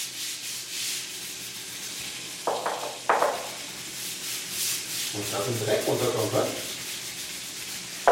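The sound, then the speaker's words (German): A scrub brush and special tile cleaner scour a long-neglected bathroom tile floor by hand from a kneeling position. The hissing, gritty rubbing runs steadily throughout, with louder strokes midway. “Den Badboden hat in den vergangenen 20 Jahren augenscheinlich noch niemand so richtig geschrubbt. Schon gar nicht auf Knien, mit Spezialfliesenreiniger und Scheuerbürste.”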